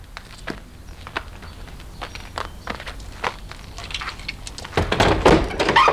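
A house window being pushed open: light taps and knocks, then a louder rushing scrape of the frame sliding open at the end.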